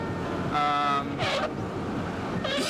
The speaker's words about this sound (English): There is nothing better than loud windshield wipers. It makes you feel good, it keeps you positive, awake, and just ready to drive 15 or more hours.